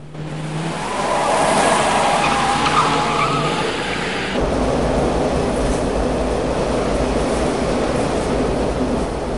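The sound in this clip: Tyres skid as a car screeches round a corner during a chase, a loud, sustained, harsh noise over a steady low rumble, changing character partway through.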